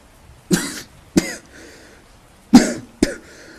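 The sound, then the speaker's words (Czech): A man coughs in four harsh, separate bursts: two close together, a pause, then two more. Each is loud and abrupt over a quiet background. “Muž zakašlal a odplivnul si.”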